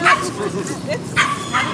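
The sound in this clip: A dog gives a few short, sharp yips and barks, with a whimpering edge, while a person talks over them.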